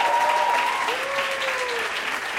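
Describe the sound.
Applause from a seated, dining audience at a live show with tables, a dense, steady wash of clapping that holds at an even level throughout.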